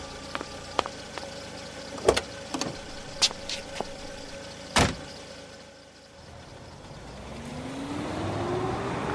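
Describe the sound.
A car setting off with a newly licensed driver after a passenger gets in: several sharp clicks and knocks, including a louder door-like thump, then the engine pulling away with a steadily rising pitch.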